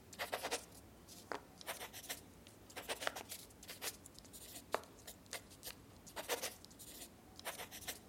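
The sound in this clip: Pen scratching across paper in a few short bursts of writing strokes, dry and papery, quiet and irregular, with brief pauses between strokes and no talk.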